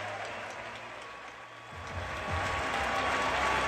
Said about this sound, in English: Standing ovation. From everybody, the players, the spectators, the announcers.